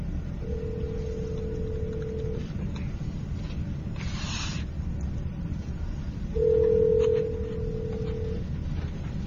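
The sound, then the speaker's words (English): Telephone line tones play over a meeting's speaker system while a call is being dialed: two long, steady, mid-pitched tones separated by a pause of several seconds, over a faint hiss. “It'll start dialing right now. It'll be a little loud over the system.”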